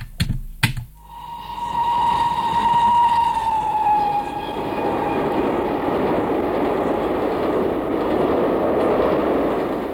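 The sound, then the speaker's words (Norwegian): A train runs on the Bergen Railway between Voss and Geilo. Two sharp clicks open, then a sustained tone that fades within a few seconds, and a loud continuous rumble of running wheels that carries on to the end. “det der var jo ikke noe trikkinnspilling, det var jo en toginnspilling, det. Bergensbanen fra Voss til Geilo.”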